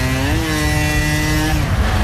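Vespa scooter engine giving a steady, harmonic buzz that lifts slightly in pitch early on, holds, and then falls away after about a second and a half.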